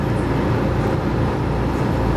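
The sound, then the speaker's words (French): A steady, loud low rumble and engine drone heard from inside a car on a ferry crossing an arm of the sea. The noise stays even and continuous throughout, with no voices or distinct events. “C'est pas tous les jours que t'es dans ta voiture et que tu passes un bac pour traverser un bras de mer”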